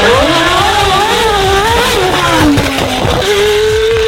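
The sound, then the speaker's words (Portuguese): A Formula 1 car's engine accelerates with a loud, high whine whose pitch climbs, drops sharply at a gear change, then jumps back up, filling the whole clip without any talk. “E a gente começa acelerando. É isso aí, Fórmula 1.”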